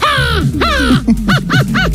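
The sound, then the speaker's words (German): A 12-year-old boy imitates a crow, giving a quick series of harsh, nasal caws with falling pitch. The calls come in close succession and are loud and unaccompanied. “er kann Vogelstimme nachmachen. Die Krähe.”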